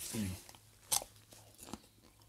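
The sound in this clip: A crisp bite into a fresh mini snack cucumber, picked straight from the plant, gives one sharp crunch followed by softer chewing. The sounds are quiet, with a brief voiced murmur at the start.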